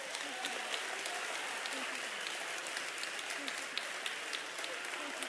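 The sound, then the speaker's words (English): Congregation clapping hands together during church worship, a dense, steady patter of many hands that holds at an even level throughout, with faint voices beneath. “Somebody clap your hand to Jesus.”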